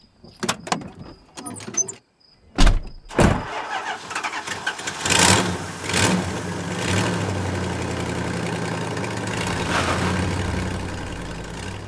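A car's door sounds, then its engine starts and keeps running with a steady, continuous rumble while the car is driven.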